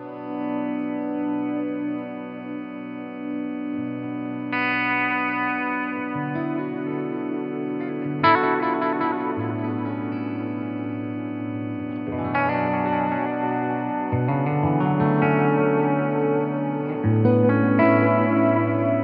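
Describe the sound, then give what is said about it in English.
Guitar played through a freeze polysustain effect pedal: held chords hang as steady, layered drones, with new chords entering every few seconds and stacking into a dense, continuous wash of sound. “Freeze, which is the polysustain, I think it is.”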